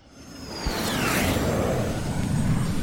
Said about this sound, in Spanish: La nave despega en 5, 4, 3, 2, 1.